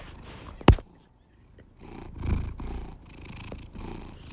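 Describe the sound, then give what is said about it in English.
A cat purrs loudly in low, rumbling waves that repeat steadily over the second half, after a brief sharp click near the start. “You're listening to Marky, the loudest purrer in the Los Angeles County area.”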